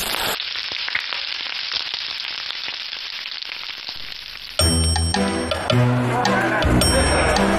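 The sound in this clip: Boletus mushrooms stir-fried with vinegar water in a hot pan give a steady, bright hissing sizzle, then music takes over for the second half.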